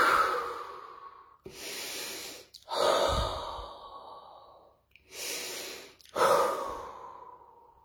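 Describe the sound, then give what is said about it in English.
Deep, slow breaths drawn in and let out, alternating as a series of long airy rushes, each swelling and fading, with short pauses between and no talk. “So let's take some deep breaths in, out.”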